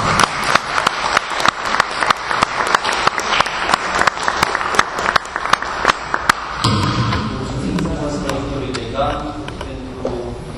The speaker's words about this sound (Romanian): Mulțumesc pentru dumneavoastră aplauze.